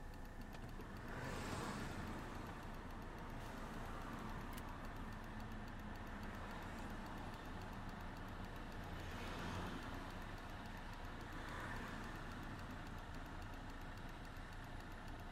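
Steady road and engine rumble heard from inside an automatic car with its windows lowered, in an area with heavy truck traffic; a continuous broad wash of noise with a few gentle swells as vehicles pass.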